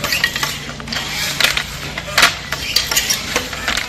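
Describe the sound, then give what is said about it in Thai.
Rhythmic clacking of a traditional Thai hand weaving loom (gi krathop) used by a village weaving group in Pattani: repeated wooden knocks and rattling mechanism sounds at a steady working pace, moderately loud. “เสียงกระทบของกี่ทอผ้าดังเป็นจังหวะสะท้อนเรื่องราวของภูมิปัญญาที่สืบทอดจากรุ่นสู่รุ่น”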